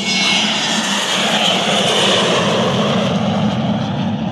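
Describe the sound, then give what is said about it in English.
An airplane's engines roar loudly at takeoff, a dense, steady, unbroken rush of engine noise that holds at the same level from start to finish, with no voices over it. “Prepare for takeoff, please.”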